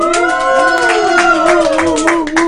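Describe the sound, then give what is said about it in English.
A late-night studio audience yells and cheers, holding loud sustained shouts throughout while claps patter underneath. “We have audience. Give us a yell, audience members.”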